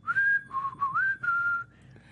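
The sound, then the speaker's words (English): A person whistles a creepy movie villain's tune, an eerie melody of several sustained notes with one clear rising glide. The whistling is loud and alone, trailing off more faintly at the end. “I find myself whistling to this day when I'm like walking around a store alone or something and like looking for things, unconsciously going,”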